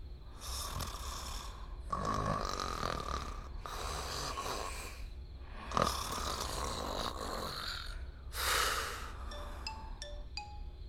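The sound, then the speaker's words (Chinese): Rough snoring from a man asleep in bed, one of two people snoring in turn: several long, rasping snores in a steady rhythm, each rising and fading, with no talk. “万飞的呼噜也打上了，不过比朱冰强。此起彼伏的呼噜声里，万飞是那个彼伏的。”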